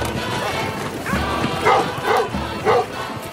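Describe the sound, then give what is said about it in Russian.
A few dogs bark at a man hanging beneath a carriage racing along a dirt road. The short barks come in a loose rhythm over a constant, noisy rumble. “Собаки лают на висящего под каретой мужчину.”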